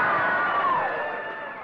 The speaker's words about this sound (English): Supporters of new governor Wally Hickel dominated the crowd at the Westmark Tuesday night. The group found plenty to cheer about all evening.